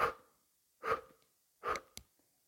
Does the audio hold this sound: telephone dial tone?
no